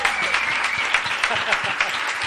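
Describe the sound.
An audience applauds a teacher's live indie pop performance with a dense, steady patter of many hands clapping that continues without a break.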